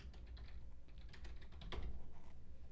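Quick keystrokes on a computer keyboard as someone types a search, many light plastic clicks in a steady run that grows slightly louder toward the end.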